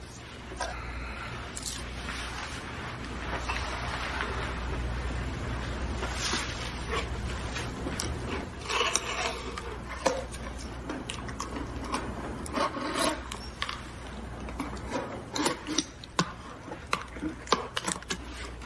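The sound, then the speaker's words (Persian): A box being opened gives a continuous rubbing and scraping, like cardboard or wood sliding and rasping, broken by many short scrapes and rustles toward the end. “اول جعبه رو باز میکنیم.”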